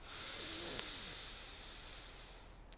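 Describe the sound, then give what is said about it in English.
A deep inhale through the nose, drawn while the shoulders lift toward the ears in a yoga shoulder-roll exercise, makes a long, steady, airy hiss. It swells gently and fades over about two and a half seconds, with no talking. “So inhale, shoulders up to your ears.”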